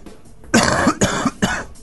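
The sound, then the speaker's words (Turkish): A person coughs three times in quick succession when asked to, giving loud, harsh, rough bursts with short gaps between them and no talk. “Hakikaten de öksürüğü var yalnız.”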